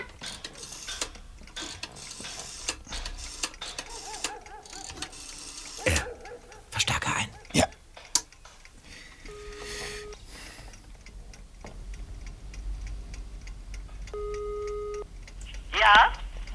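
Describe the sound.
A telephone is dialed to make a call, with soft ratcheting clicks and whirs of the dial, then a couple of short electronic tones. Faint voices are heard briefly.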